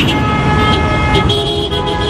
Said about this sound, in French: Les véhicules roulent au ralenti.